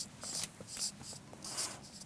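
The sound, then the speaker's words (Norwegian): Handwriting on a surface: several quick, scratchy pen strokes in short bursts with brief pauses between them, soft and dry in tone. “Jeg skriver ikke så pent da.”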